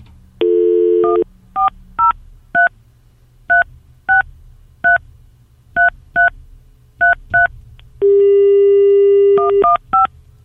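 Telephone keypad tones dial a number in many short, evenly spaced beeps. Longer steady tones sound near the start and again near the end.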